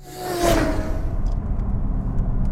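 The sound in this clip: A car rolling along on newly fitted tires gives a steady, low road rumble, with a brief whooshing swell near the start before settling into an even drone.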